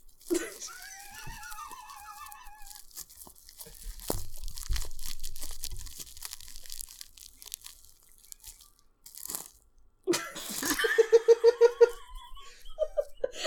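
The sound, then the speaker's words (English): Crusty bread is bitten and torn in a run of crisp, crackling crunches, with giggling and laughter from people at the start and again in a burst of pulsing laughs near the end. “Did you specifically bring this bread so you could do some ASMR?”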